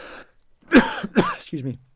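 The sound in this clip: Two rough coughs, sharp and throaty, follow a brief low breath. A short voiced sound comes after them, and there is no other talk.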